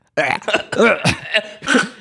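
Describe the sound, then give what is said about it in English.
A voice imitates a sword swallower with a bad gag reflex gagging and choking on the blade, a quick series of strained, guttural retching bursts and gulps. “a sword swallower who had really bad gag reflex, so he choked on the sword every time”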